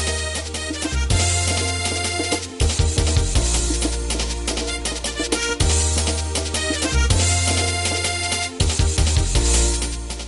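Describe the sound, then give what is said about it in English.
Lively election dance music playing on the streets of Monrovia, Liberia, loud and continuous, driven by a steady repeating beat and heavy bass under a dense layer of bright instruments. “That's election music, Liberia style. And the atmosphere was lively, festive, a dance party all the time.”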